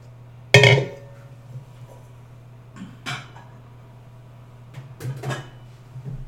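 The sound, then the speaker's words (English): A large mixing bowl being taken out and handled while baking peanut butter cookies: one sharp clunk followed by a few fainter knocks and clinks, over a steady low hum. “Let's bust out a large mixing bowl.”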